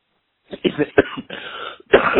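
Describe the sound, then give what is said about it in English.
A run of short, harsh coughs gives way to a drawn-out, rasping throat clearing and then another burst of coughing, loud and without talk, from someone with a frog in the throat. “I'm so sorry. I got a little frog in my throat.”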